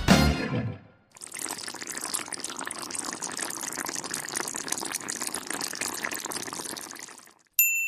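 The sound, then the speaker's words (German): Food bubbling as it cooks in a pan on a stove at home: a dense, steady bubbling and crackling hiss that lasts about six seconds and then stops abruptly. “Das erste Geräusch war das Blubbern in meiner Pfanne auf dem Herd von dem Essen, das da gekocht hat.”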